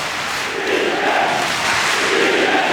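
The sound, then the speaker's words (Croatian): Norwegian football fans chanting in a stadium at a Viking match, a loud, sustained roar of massed voices that swells slightly partway through and keeps going without a break. “čujete norveške navijače”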